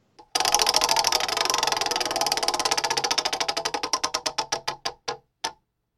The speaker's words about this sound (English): Spinning the wheel.